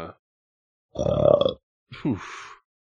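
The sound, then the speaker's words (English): A single loud, low burp lasting about half a second, followed after a short pause by a brief, rougher vocal sound. “I could smell that hot boozy burp over here.”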